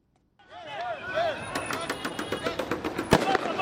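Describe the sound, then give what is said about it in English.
Bangs of police firing tear gas at protesters outside Kenya's electoral commission in Nairobi during an election-rerun dispute, with crowd voices shouting as demonstrators retreat. Many sharp pops rise over the voices, the loudest crack near the end. “The sounds of police firing tear gas and protesters in retreat filled the air outside Kenya's Electoral Commission Tuesday”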